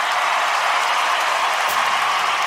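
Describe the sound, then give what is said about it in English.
A concert audience at Red Rocks applauds and welcomes a performer, a loud, continuous, hissing roar of clapping that stays level for the whole stretch. “Red Rocks, give Grace Potter a big welcome.”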